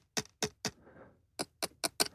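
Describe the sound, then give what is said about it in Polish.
A pen taps thin hardened sugar paste flower petals, making seven sharp, light clicks that sound almost like plastic. Three come in quick succession, then a soft rustle, then four more evenly spaced taps, all faint and alone. “Uderzam w płatki, które są bardzo cieniutkie, długopisem uderzam i mogłoby się wydawać, że to jest jakieś tworzywo sztuczne, a to jest już utwardzona masa cukrowa.”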